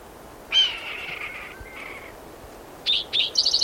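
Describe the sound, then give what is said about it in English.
A red-tailed hawk calls overhead with one drawn-out, hoarse, descending scream, followed near the end by a few short, high chirps. “Red-tailed hawk overhead.”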